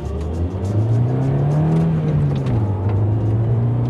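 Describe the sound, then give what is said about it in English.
A car engine hums steadily while driving through a dark forest on a Friday night south of Nuremberg. The drone holds loud and even, its pitch climbing slightly before dipping and settling lower. “It is Friday evening and I'm driving to the Bighorn Ranch in Birnthon. It's in the very south of Nuremberg and now I'm passing through a dark forest.”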